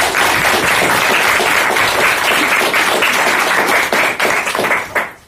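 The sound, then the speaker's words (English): A round of audience applause at a book reading and launch of a Danish translation: loud, dense clapping from many people that holds steady, then thins into scattered claps and dies away near the end. “So without further ado, a little round of applause and we'll start going.”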